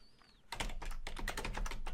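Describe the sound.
Typing on a computer keyboard to retype text in a game editor: after a brief quiet moment comes a quick, uneven run of many crisp key clicks, fairly loud and alone.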